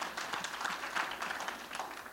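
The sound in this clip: An audience at a French-language church service applauds the Lord with faint, dense clapping that swells and dips slightly across the short stretch.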